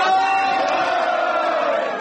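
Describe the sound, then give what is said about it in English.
Supporters at Democratic Party of Japan headquarters cheer at a predicted landslide election victory, a loud, steady roar of many voices. “Cheers of delight went up at the headquarters of candidates for the Democratic Party of Japan as broadcasters predicted a landslide victory over the Liberal Democratic Party.”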